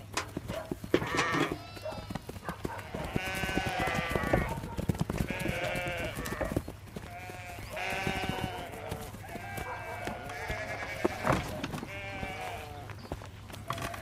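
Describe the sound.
Sheep bleat repeatedly while chewing by a farm fence. The series of wavering, nasal bleats is fairly loud and overlaps at times, over a low steady hum.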